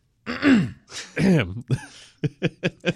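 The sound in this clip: A person clearing their throat: two longer, rasping grunts followed by a quick run of short, sharp clearing bursts, heard alone without talk.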